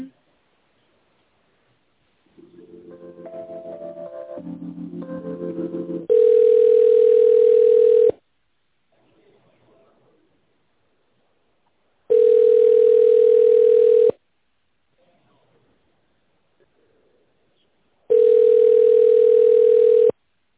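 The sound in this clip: A telephone ringback tone plays while a call is being transferred to a company's tenders department, sounding three long, steady, loud beeps of about two seconds each, separated by silent gaps.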